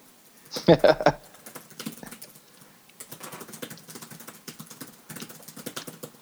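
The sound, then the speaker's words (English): Rapid typing on a computer keyboard while writing a quick message, with fast clattering keystrokes in several bursts separated by short pauses. “Just messaging real quick. I can type that fast.”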